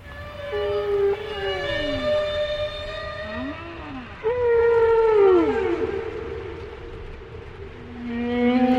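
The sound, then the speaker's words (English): Whale song underwater in the sea: long tonal moans and swooping calls rich in harmonics, with pitch sweeping up and down between sustained notes, fairly loud and steady, with no talk. “that's why I wanted to lie in the sea and listen to a whale sing.”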